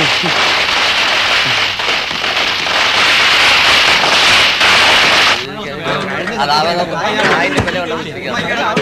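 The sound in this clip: A string of lit firecrackers bursts in a rapid, dense, loud crackle that runs continuously for about five seconds, then stops and gives way to people talking.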